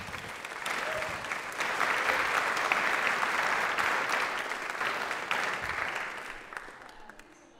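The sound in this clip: Audience applause welcoming a student speaker to the front at a church talk, a steady, dense clapping that swells early, holds for several seconds, then thins and fades out at the end.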